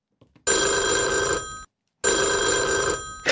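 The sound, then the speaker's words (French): A telephone rings twice on a line to England, each ring a loud, buzzy electronic burst of about a second with a sharp harmonic tone, separated by a short silence, alone without voices. “Adrien de la Datcham disait ça sonne comme un portable qui est en Angleterre”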